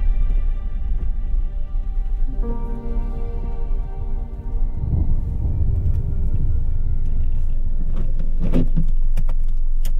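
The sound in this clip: A car drives along with a steady low engine rumble and road hum that holds throughout, with a few brief sharp clicks near the end.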